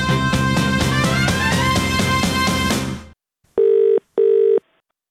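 A telephone rings twice, two evenly spaced electronic trills that sound clearly and alone after a passage of music ends.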